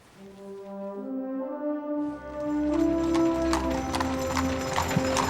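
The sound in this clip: A carriage horse clip-clops with hooves at earliest dawn. After about two seconds of sustained tones, a low rolling rumble enters and many sharp, steady hoof clops follow, growing louder and continuing to the end.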